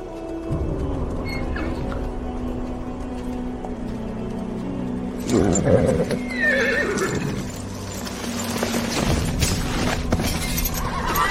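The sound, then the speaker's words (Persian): Horses ridden by soldiers through a forest in a video game whinny and neigh over clip-clopping hooves. A louder crashing burst comes midway, and no one speaks. “جنگل چند نظامی سوار بر اسب پشت سر گرالت حرکت میکنند.”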